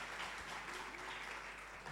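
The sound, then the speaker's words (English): Audience applause at a debate in Ghana as the debaters join the stage, a steady, dense clapping that stays even and fairly faint throughout. “Oh, you can keep your hands, you know, put your hands together. Keep clapping as they join us.”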